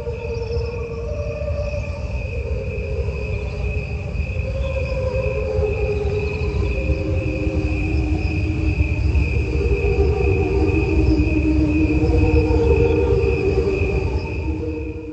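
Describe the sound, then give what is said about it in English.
Crickets chirping at normal speed layered over the same cricket recording slowed down: a steady, bright high trill runs continuously above lower, warbling, almost voice-like tones that drift and swell throughout, with no talking. “What you just heard was crickets at normal speed over top that same sound being slowed down.”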